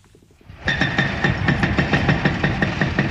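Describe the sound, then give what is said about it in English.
Heavy machinery demolishing a Palestinian house beneath Jerusalem's walled old city: a loud engine drone kicks in after a quiet start and holds steady with a rhythmic throbbing pulse, no voices. “From a hillside beneath Jerusalem's walled old city, I watch a Palestinian house being torn down.”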